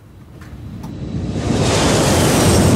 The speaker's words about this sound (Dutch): Ja, dat is het geluid van overvliegende vliegtuigen in de noordrand van Brussel en in Brussel zelf.